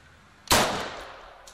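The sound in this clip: A single sharp, loud rifle blast from a sniper rifle being test fired by a Free Army commander in Syria, bursting suddenly and then trailing off in a rough, fading decay.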